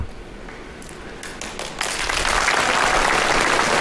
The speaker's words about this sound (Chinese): 都鼓掌了，走啊